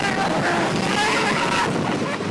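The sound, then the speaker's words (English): A roller coaster sound effect from an amusement park: a steady, loud rushing roar like strong wind and rumbling track. It holds an even level for the whole two seconds, with no clear breaks or separate events. “Cue the roller coaster sound now.”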